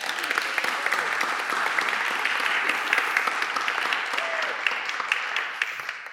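Audience applause greets a guest at a church gathering: many hands clapping in a steady, even stream that tapers slightly at the end.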